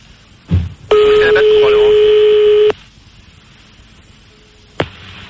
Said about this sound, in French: Ah un fax? Il a mis le fax le salaud. Tu peux éteindre.